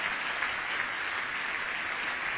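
Dense, steady applause from an audience greeting a performer coming onto the stage, a continuous wash of clapping with an even loudness throughout and no distinct pauses.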